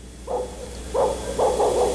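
A dog barks a few times over a steady hiss, giving short, mid-pitched bursts with brief gaps between them.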